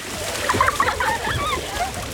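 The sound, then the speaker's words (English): A child splashes in a swimming pool, with a few quick splashes early on followed by softer, ongoing water movement. “Wow, look at Harper. She's so confident in the water. I know, she's my little mermaid. I can barely get her out. Seriously, she's come so far. She's like a different kid in the pool these days.”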